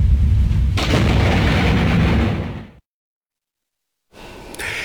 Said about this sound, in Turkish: Yağışlı havada seyreden bir kamyon yıldırımdan kıl payı kurtuldu.